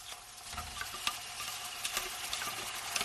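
Something sweet frying in a restaurant kitchen gives off a steady, hissing sizzle, with many small crackles and pops scattered throughout at a fairly even level.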